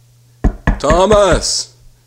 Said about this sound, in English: So it starts with you knocking on the door? Me knocking on the door.